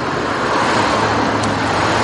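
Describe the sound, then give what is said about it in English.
Peak-hour city-centre traffic in Karlsruhe, with many cars whizzing past, forms a loud, unbroken roar of engines and tyres that holds steady for the whole clip. “Here at peak hour in the centre of Karlsruhe, thousands of cars are whizzing past.”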